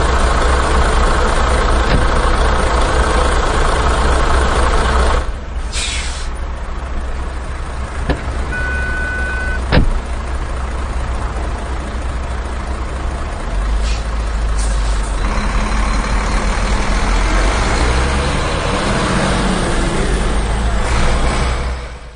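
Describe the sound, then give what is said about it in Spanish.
A truck engine idles with a steady, loud, low rumble that runs unbroken through the whole stretch, with only slight shifts in its level. “Ah, mira, si está aquí el camión. El Ross, sube.”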